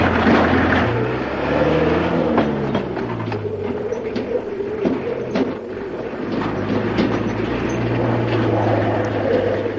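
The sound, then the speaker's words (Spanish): A truck engine labors, puffing black exhaust smoke as it pulls away and climbs a gentle rise on a rural road: a loud, droning roar whose engine tones shift up and down in pitch, heard alone without voices. “El camión comienza a dejarla atrás, sin embargo Berta no se rinde. Un humo negro sale del tubo de escape mientras el vehículo comienza a ascender una suave loma.”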